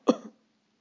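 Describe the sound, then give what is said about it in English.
A person imitates an elk coughing: one short, harsh, throaty burst that fades quickly. No speech surrounds it. “And then all of a sudden, the elk coughs.”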